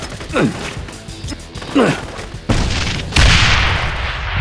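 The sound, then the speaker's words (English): Hand grenades explode in two loud blasts a little under a second apart, each leaving a sustained, rumbling roar. “Your hand grenade seems to have made an impression on them. Maybe another one will discourage them from rushing the building. Let's see what two will do.”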